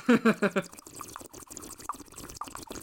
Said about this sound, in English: I just had the urge to, and then subsequently did not, just, like, start the podcast by trying to make bubble noises as if we were underwater. Here, you guys won't hear this on the Zoom, but this will, it's just going to sound like a bong.